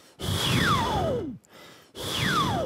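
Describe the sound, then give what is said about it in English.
Two long, breathy exhalations shaped by a changing mouth. A whistle-like resonance glides steadily downward from high to low through each breath, with a brief quieter breath between them. “I breathe out mm-hmm. while trying to change my shape of the mouth mm. so that I can like practice my like mouth changing shape and also like the breathing out technique”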